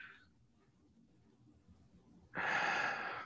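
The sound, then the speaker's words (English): Breathing in and out through the nose: a brief breath at the start, a quiet pause, then a long, loud, rushing breath that carries on to the end. “4 or 5 seconds in through the nose and out. What that does, breathing in through the nose and out, it lowers the brain waves, lowers your heart rate.”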